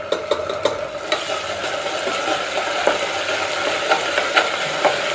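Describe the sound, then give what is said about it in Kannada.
Onions sizzle as they fry with ginger garlic paste in hot oil under a constant crackling hiss. A spoon scrapes the pan as it stirs, making several sharp clacks at irregular intervals. “ಈರುಳ್ಳಿ ಚೆನ್ನಾಗಿ fry ಆಗಬೇಕು. ಇದಕ್ಕೀಗ ಶುಂಠಿ ಬೆಳ್ಳುಳ್ಳಿ paste ಹಾಕ್ತಾಯಿದ್ದೀನಿ”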